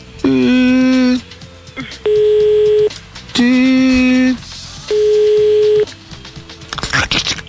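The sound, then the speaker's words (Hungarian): Telephone line tones as a call is placed: four long electronic tones of about a second each with short gaps between them. A buzzy, harmonic-rich tone alternates with a purer, higher tone, and the sequence is loud and steady. “Tárcsázunk?”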